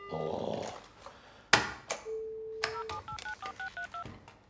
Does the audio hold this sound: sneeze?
no